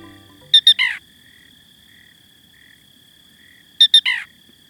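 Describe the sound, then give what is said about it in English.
A black rail calls in a Louisiana marsh on a February night: two sharp, high clicking notes and then a longer, lower buzzy note. The three-note phrase sounds twice, about three seconds apart, over near silence. “As the February moon rises over a Louisiana marsh, a peculiar sound breaks the nocturnal silence. It's the call of a black rail, a bird whose voice seems pulled straight from a cartoon soundtrack.”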